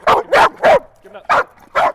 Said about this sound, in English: So I'll give him the command to bark and then I'll give him the command to go down and be quiet, which is still.